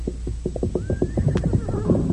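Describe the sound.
A horse neighs in a loud, shaky whinny made of many rapid pulsing bursts with a thin high tone running through them, heard alone.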